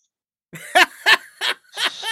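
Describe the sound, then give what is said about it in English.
A human voice imitates a sheep coughing, producing a quick series of four or five rough, throaty bursts with short gaps, the last one drawn out and raspy. “My favourite noise, and I will do it, but I'll explain it first. It's the sound of a sheep coughing.”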